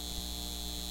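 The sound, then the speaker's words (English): Steady electrical hum of a data center, a continuous low drone with a bright, even hiss layered above it. No voices and no distinct events, just an unbroken, constant tone. “This is the sound of a data center taking your water and driving up your utility”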